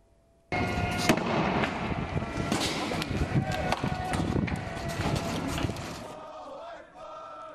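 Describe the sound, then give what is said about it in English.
Sharp bangs of tear gas and smoke grenades fired at anti-monarchy protesters in Bahrain, in repeated bursts over loud crowd noise that begins abruptly and continues throughout, then eases near the end. “Regime forces fired tear gas and smoke grenades to disperse the protesters who demanded Sheikh Salman's release.”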